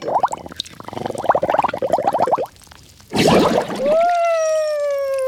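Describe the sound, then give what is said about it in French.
Water splashing and pouring in a bathroom sink, a fast run of gurgling, bubbly bursts, then a brief quiet gap and a louder steady rush of water, with no talking. “Mais qu'est-ce que tu fais à barboter dans le lavabo ?”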